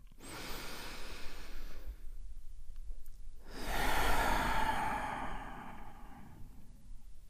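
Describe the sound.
Slow breathing during a guided relaxation exercise: one soft, drawn breath, a pause, then a longer, airy breath that swells and fades, quiet and without talk.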